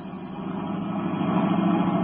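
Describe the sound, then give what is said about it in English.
A sedan accelerates along a concrete road. Its engine gives a steady droning hum that grows slightly louder toward the end, with no voices. “Turning onto the road, Britt Reed pressed down on the accelerator. Sedan sped along the concrete after Brinkley's car.”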